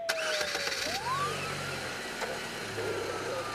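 A car engine starts and settles into a steady, mid-pitched running hum at moderate loudness. Faint tonal sweeps drift above it.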